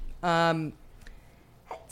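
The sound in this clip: A single loud voiced sneeze bursts out during a lively conversation. Quieter breathy noise follows, then a brief sound at the end.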